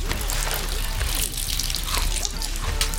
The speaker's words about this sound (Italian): È casa mia, se voglio pisciare nel lavandino, io piscio nel mio lavandino.